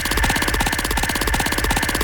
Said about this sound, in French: Alors on y va, on lance la roue. Et puis Émilie, tu l'arrêtes quand tu veux avec un magnifique stop.